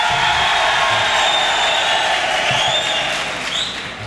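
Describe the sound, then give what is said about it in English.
About 1,000 Folsom prison inmates cheer as an audience, a loud, sustained roar of voices and clapping with sharp whistles rising above it, easing slightly toward the end. “Now, look, that audience response is very important. Let's see how loud 1,000 men from Folsom can be. Let's hear it right now. Come on.”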